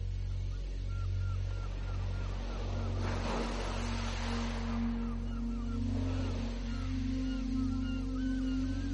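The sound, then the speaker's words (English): Gentle tide waves ebb and flow on a shore. A couple of soft, broad surges of wash rise and fall over a steady low droning hum. “The gentle ebb and flow of the tide, in and out.”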